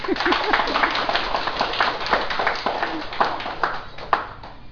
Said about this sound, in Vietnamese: Sao không vỗ tay à?